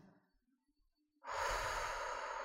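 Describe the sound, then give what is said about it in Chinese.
A long, steady breath is exhaled through the mouth during a breathing exercise, with the tongue held against the roof of the mouth. The soft, airy rush starts after a short quiet pause and continues to the end. “请保持舌头抵住上颚。首先。我们透过嘴巴呼气，就像这样。”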